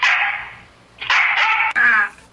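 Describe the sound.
A dog with severe straining problems whimpers on a played recording: a few drawn-out, high, strained whining cries in separate bursts, with a short break before the last one.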